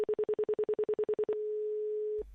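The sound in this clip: Telephone tones on a call just dialed: a rapid run of identical mid-pitched beeps gives way to one steady tone, which a click cuts off at the end.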